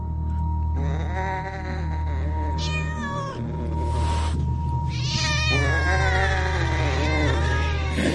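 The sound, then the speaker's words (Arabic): Many cats meow and yowl together as they pour out through a tomb door. Long, drawn-out meows overlap continuously, some wavering and bleat-like, over a steady low hum. “باب التربة بدأوا يخرجوا، مش قطة ولا اتنين ولا تلاتة، دول كتير.”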